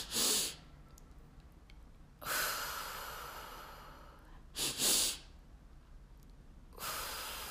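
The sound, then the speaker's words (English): Deep-breathing exercise with a double inhale: loud, breathy rushes of air separated by quiet gaps, including a quick two-part inhale and longer drawn-out breaths. “Double inhale as deep as a breath as you can.”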